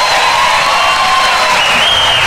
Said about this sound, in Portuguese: Obrigada, muito obrigada. Mais aplausos.